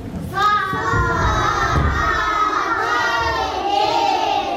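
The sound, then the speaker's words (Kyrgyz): First-grade schoolchildren shout together in a classroom at a village secondary school in Chong-Alai, Kyrgyzstan: a loud, sustained chorus of high children's voices that continues throughout. “Саламатсыңарбы, балдар? Бул Чоңолайдагы Буркансуу орто мектебинин 1-чи классынын окуучулары.”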